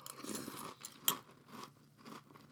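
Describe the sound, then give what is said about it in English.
Faint crunching and chewing of Froot Loops cereal with marshmallows, soft munching broken by one sharper crunch, with no talk. “I'm going to be eating some cereal live and talking about if it's good or not. I'm going to take a bite here.”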